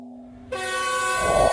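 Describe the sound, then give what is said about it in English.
Train horn on the Qinghai-Tibet high-altitude railway: a faint low hum, then a loud, sustained multi-tone horn blast that starts abruptly after half a second and holds steady to the end. “I'm about to board the Qinghai Xizan Railway, the highest railway anywhere in the world.”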